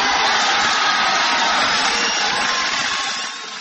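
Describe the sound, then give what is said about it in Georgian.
A crowd ovation during Reagan's Berlin Wall speech forms a dense, loud, steady roar of massed clapping and cheering. It holds evenly and dips slightly in the last moment. “და ამ ოვაციის ფონზე წარმოთქვა რეიგანმა თავისი სახელგანთქმული მოწოდება საბჭოთა კავშირის კომუნისტური პარტიის გენერალური მდივნისადმი.”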